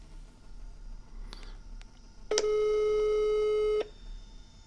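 Telephone ringing tone on an outgoing call: one sustained, steady electronic tone lasting about a second and a half, rising abruptly out of faint background hiss and cutting off just as sharply.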